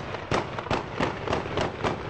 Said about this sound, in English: Today, shots rang out in mourning.